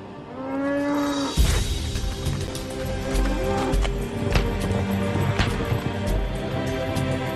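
Cattle in a herd on the grasslands at the Inner Mongolia–Liaoning border near the Horqin sands. A long, low, drawn-out moo opens, then busy thumps, scuffing and clatter follow, with fainter lowing calls mixed in.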